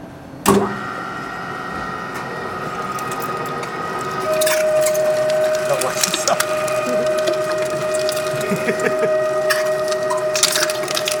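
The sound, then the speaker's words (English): A 3-horsepower Hobart meat grinder from the 1960s grinds sausage. A sharp thud gives way to a steady mechanical hum, and a high sustained whine joins midway over scattered rattles and clicks. “So this is our 3-horsepower grinder. It's a big old Hobart from the 60s.”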